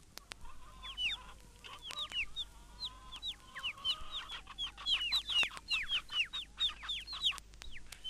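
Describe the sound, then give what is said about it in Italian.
Chicks chirping: many faint, high, rapid peeps, each sliding downward in pitch, come in overlapping clusters over a low hum, with a few sharp clicks and no voices. “il pigolio dei pulcini,”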